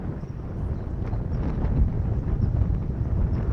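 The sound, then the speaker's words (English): Strong wind during a tornado in St. Louis roars as a steady low rumble with rougher gusting swells, loud and continuous, with no voices. “So that way you can hear, like you hear the wind now.”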